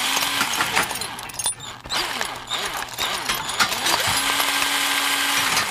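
A power drill drives screws while an awning of metal bars and fabric is assembled. Two whirring bursts, one at the start and one near the end, frame clattering mechanical noise.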